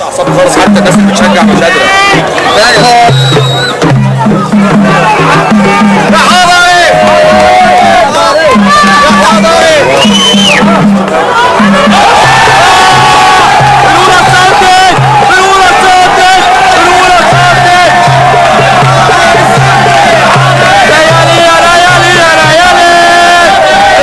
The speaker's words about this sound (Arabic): ده فيديو اتبعت لي مخصوص من القلب من الملعب. شوف الجماهير كانت قلبها ازاي وكان واقفة مع الاسماعيلي